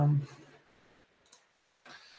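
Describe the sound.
A computer mouse click as a window is closed: a single brief, sharp, faint click set between stretches of a man's talking.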